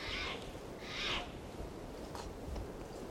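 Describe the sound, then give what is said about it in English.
Decoy birds call softly, two faint high-pitched calls in the first second over a quiet background hiss, followed by a few fainter traces. “I think I hear the decoys calling.”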